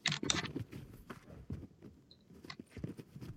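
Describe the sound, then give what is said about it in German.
A computer keyboard's space bar is hammered repeatedly during a jumping game, giving many quick, faint clacks in an irregular, hurried rhythm with a few sharper taps among them. “Ich schwör, ich drücke hier meine Leertaste durch.”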